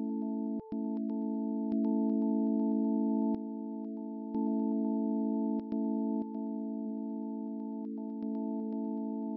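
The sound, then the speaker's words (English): Solar wind sonified from NASA Voyager 2 spacecraft data forms a steady, humming electronic drone of layered sustained tones, broken by occasional sharp clicks and small shifts in level. “That is the sound of the solar wind, the stream of charged particles from the sun that suffuses our entire solar system.”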